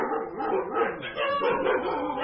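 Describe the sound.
Dogs at a boarding school for the blind vocalize in a continuous run of yips and whimpering barks, moderately loud and overlapping, with no silent gaps between calls.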